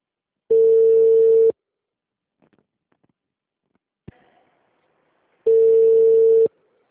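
Telephone line tone after a dropped call: two loud, steady one-second beeps at one mid pitch, separated by a long quiet gap with only faint small noises.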